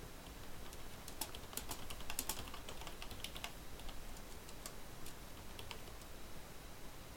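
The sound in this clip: Typing a message on a computer keyboard: faint, irregular key clicks that come in quick bursts, busier in the first half and thinning out toward the end, with no talking.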